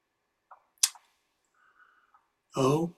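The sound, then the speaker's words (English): Keyboard typing comes through as a couple of sparse, sharp clicks, quiet and irregular, followed by a brief louder burst. “Wait a minute. Sometimes it takes time to type.”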